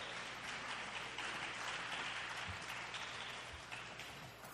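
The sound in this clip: Faint audience applause welcoming a speaker to the stage at a talk on the Bible: a steady, rain-like wash of many hands clapping that stays even throughout and thins slightly at the close.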